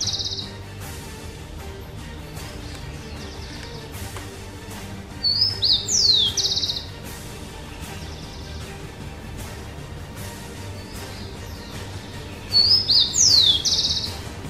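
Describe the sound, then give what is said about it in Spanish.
Birds singing at dawn outside a tenth-floor balcony: two short bursts of high, bright chirping spaced well apart, each lasting about a second, over a quiet, steady low background. “fue al balcón para contemplar como de costumbre el maravilloso canto de las aves anunciando un nuevo día.”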